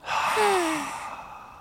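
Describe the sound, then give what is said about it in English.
One slow exhale out through the mouth during a calm breathing exercise: a long breathy sigh that swells at first and then gradually fades. “Slowly in through our noses. Then slowly out through our mouths.”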